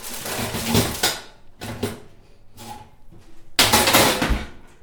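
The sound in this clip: A tray of peppers clatters as it is pushed into a kitchen oven set to 180 degrees, heard as four separate bursts of metallic rattling and scraping with short quiet gaps between them.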